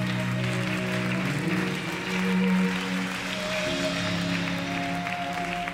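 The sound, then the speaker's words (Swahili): Congregation clapping for Jesus during a church service, a steady, even wash of applause that continues without a break at moderate loudness. “Ongeza makofi tena kwa Yesu.”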